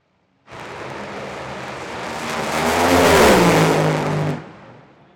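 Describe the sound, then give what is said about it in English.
A top fuel dragster's run at an NHRA drag race, heard from the far end of the racetrack: a sudden, dense roar swells to a thunderous peak as its tone drops lower, then cuts off abruptly, leaving faint background noise. “So now I'm going to play a top fuel run from the far end of the racetrack.”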